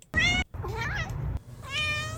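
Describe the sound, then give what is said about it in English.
A human voice imitates a cat meowing, giving three drawn-out, wavering meows with brief gaps between them. The middle meow is the longest, and the meows are clear and fairly loud with no other talk. “meow meow meow meow meow meow meow meow meow meow meow meow meow meow meow. Translation: you're listening to WCBN FM Ann Arbor.”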